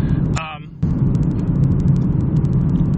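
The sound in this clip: Steady low rumble of a car driving down Colfax in front of Colorado Health Network, with a brief electronic chirping tone and a short dip in the noise near the start.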